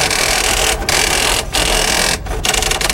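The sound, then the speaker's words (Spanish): Sonar sound of a Soviet Typhoon-class submarine's twin screws: a loud, dense mechanical churning with a rapid ticking texture, cut by a few brief dropouts. “Tornillos gemelos. Parece un sonido igual al de un tifón.”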